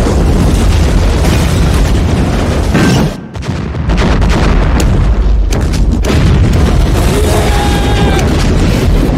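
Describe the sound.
A loud explosion follows a missed disarm button. The dense, roaring blast fills the whole clip, dips briefly about a third of the way through, then surges back at full strength.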